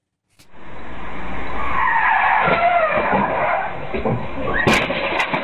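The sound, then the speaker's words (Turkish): Tires skid as an out-of-control car slides off a street onto a sidewalk in Erzurum's Palandöken district and strikes an electric pole. A long, loud screech holds for several seconds, and a sharp hit comes near the end. “Gençlerin kıl payı kurtulduğu, aracınsa elektrik direğine çarparak durabildiği kaza anına bakalım şimdi.”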